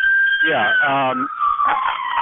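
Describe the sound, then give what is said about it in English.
An ambulance siren passes on a New York City street. Its high, sustained tone slowly drops in pitch while someone talks over it. “I swear, I'm in New York City. This is our life right now. Ambulance is going down the street every day.”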